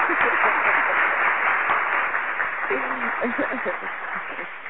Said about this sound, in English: We definitely got to give a round of applause to you, man.